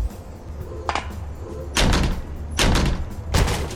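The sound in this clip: Heavy thuds of a door being battered in a radio drama: one lighter knock, then three loud, booming blows spaced under a second apart, each with a short rumbling tail.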